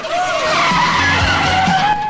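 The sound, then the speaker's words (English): Tyres screech as a red truck pulls up: a loud, sustained squeal with a wavering pitch over a continuous engine roar that lasts about two seconds. “A red truck pulls up.”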